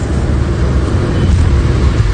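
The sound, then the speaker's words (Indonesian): Steady low engine and road rumble of a car driving at night on a dark road from Salatiga toward Bandung, a loud, continuous wash of noise with no voices. “Kami berdua sama-sama perhatikan jalan. Ini memang pertama kalinya aku menyetir dari Salatiga menuju Bandung.”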